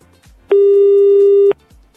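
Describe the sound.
Telephone ringing tone heard while a call is being dialed: a single steady, buzzy tone lasting about one second. It starts and stops abruptly, with only faint low sounds before and after.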